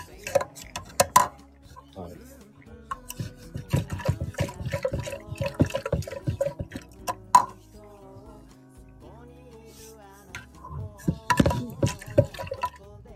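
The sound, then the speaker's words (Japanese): Water poured into hot water to cool it for coffee brewing, with splashy plops and trickling in a few bursts; people talk throughout. “今ね、水を投入してお湯の温度を20度ぐらい下げますね。”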